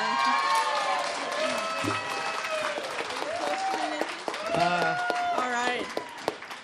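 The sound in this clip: A convention audience applauds a singing duo. Dense clapping fills the first half, then fades as voices talk over it.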